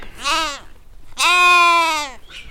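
Bottle-fed lambs about six weeks old bleat twice: a shorter call, then a longer, strong, wavering one.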